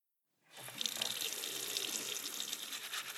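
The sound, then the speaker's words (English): Running water from a tap as hands are washed: after a brief silence the flow starts and settles into a steady, hissing rush that continues to the end. “I'm just taking a minute to wash my hands before we begin the show this week.”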